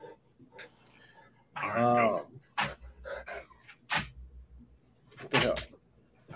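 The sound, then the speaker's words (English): A big old dog, nearly twelve, panting in bursts of breathy, rhythmic huffing, mixed with brief clattering and other shuffling noises. “My big old dog always comes up about an hour into the show and says hi. Big old man.”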